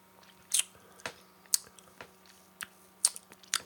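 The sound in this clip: Crunching of craft beer flavour potato chips, heard as a faint series of sharp, crisp bites and chews about every half second, with no talk.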